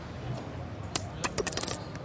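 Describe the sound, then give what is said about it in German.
A supermarket shopping-cart token coin is dropped into a homemade random-picking setup, landing with a bright metallic clink, then bouncing and rattling in a quickening flurry of small chimes before settling. “Die Plus-Münze, der Plus-Einkaufswagen-Chip hat entschieden.”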